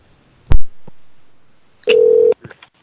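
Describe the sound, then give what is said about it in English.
Telephone dialing sounds: a sharp clack, then a pause and a single loud steady beep tone, followed by a few short faint blips. “We're dialing this number.”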